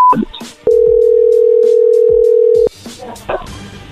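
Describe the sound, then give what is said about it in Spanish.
Ringback tone of an outgoing phone call: one steady, mid-pitched tone holds for about two seconds, with brief muffled sounds before and after it. “Vamos a marcarles una vez más para aclarar esto, para que no se asusten.”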